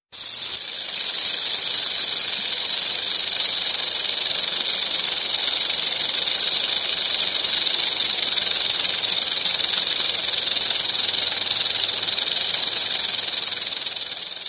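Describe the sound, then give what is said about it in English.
A rattlesnake sounds its warning rattle, a loud, continuous, high dry buzzing hiss that holds steady without a break for about fourteen seconds, heard on its own. “here is a quick little clip of what a rattle sounds like. So if you see one, don't panic.”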